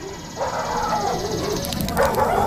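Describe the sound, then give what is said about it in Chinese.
Dogs bark on a farm, short yelping barks mixed into a steady, hissy background that stays at a fairly even level. “只要能避开这些狗，不被人类发现，”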